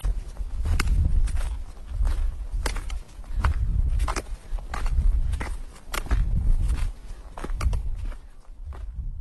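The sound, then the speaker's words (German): Footsteps walking downhill on a mountain pass: a long, steady series of thudding steps with sharp clicks at a regular walking pace, with no talk. “Jetzt laufe ich bergab zu der Teufelsbrücke”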